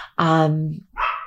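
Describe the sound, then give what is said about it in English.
A dog barks indoors: one loud, long, tonal bark, followed after a brief pause by a shorter, softer second sound. “sorry if you hear the dog barking”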